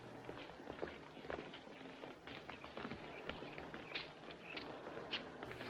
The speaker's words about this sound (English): Later, Catherine, Thomas, and Virginia walk up to Teresa's house.